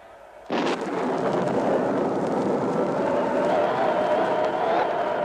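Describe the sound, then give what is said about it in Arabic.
The Tower of Babel collapses in a radio drama: a sudden loud crash bursts in, then holds as a sustained, dense roaring rumble that continues steadily to the end. “مولاي، ما هذا الصوت الهائل؟ البرج، برج بابل يا مولاي، انظر إنه ينهار، ينهار على الناس.”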